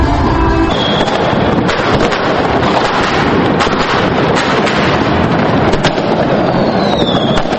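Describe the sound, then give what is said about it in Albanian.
Many fireworks crackle and bang nonstop at a New Year celebration in Pristina, Kosovo, a dense, loud barrage with wind buffeting the microphone throughout. “në momentin e ndrimit të vitit janë shkrepur fishek zjarre të shumta.”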